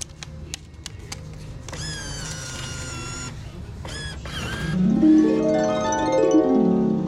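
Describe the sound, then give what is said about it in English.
An old-fashioned fortune teller machine wearing a cowboy hat takes in a dollar bill: a few quick clicks, then a steady mechanical whir, followed by a louder humming, droning tone. “the professor found one of those old timey fortune teller machines that was outfitted with a cowboy hat. Curious, the professor fed it a dollar bill and got the following fortune.”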